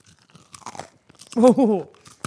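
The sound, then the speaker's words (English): Crunchy Melba toast being bitten and chewed: a few sharp, dry crunches and crackles, with a short voiced murmur in the middle of the chewing. “Now you can listen to me eating. We're gonna eat Melba toast.”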